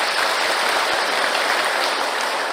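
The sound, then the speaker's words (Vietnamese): Audience applause at a Buddhist sermon, loud, dense and steady clapping that fills the whole short moment without letting up, with no voices standing out above it. “Cho tràng pháo tay 10 điểm.”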